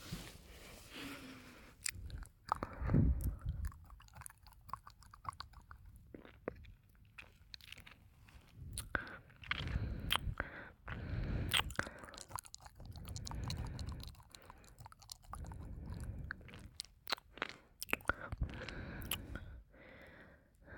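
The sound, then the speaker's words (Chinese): Licking sounds: soft, wet mouth noises with smacks and small crunchy clicks that repeat irregularly throughout. Quiet and alone, with no talk. “舔他的话，会有感觉吗？不知道，不知道，那就试试。”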